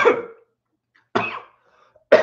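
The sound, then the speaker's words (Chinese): Three harsh coughs from a man who has just choked, each a short noisy burst separated by clear silent pauses, with no talk. “不好意思，不好意思啊，他呛到了。我来喝点水，再跟大家说。”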